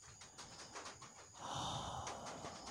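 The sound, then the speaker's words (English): Warm breath blown onto someone's face, a soft, airy breathing sound swelling into a longer, fuller hiss of exhaled air, faint and close, with no talk. “I breathe on your face.”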